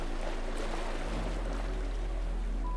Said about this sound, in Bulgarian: Позволи си да чуеш лечебната нежна мелодия на развълнувания океан,